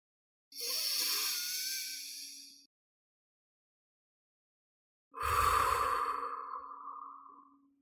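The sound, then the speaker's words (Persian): Two deep breaths during a guided breathing exercise, each a long airy rush of about two seconds separated by a silent pause, the second fuller and lower than the first. “حالا بیایید دو تا نفس عمیق دیگه بکشیم و بهش دقت کنیم تا ببینیم چقدر حتی این دو تا نفس هم میتونن با هم دیگه متفاوت باشن.”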